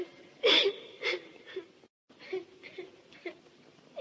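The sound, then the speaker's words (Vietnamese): Mournful crying and wailing, several broken, sob-like vocal bursts that start strongly and grow fainter, with a brief silence partway through. “Lạ kìa, tiếng ai khóc than thảm thế?”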